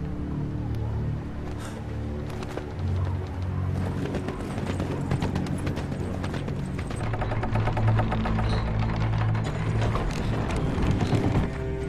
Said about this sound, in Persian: اسب بدون سواره.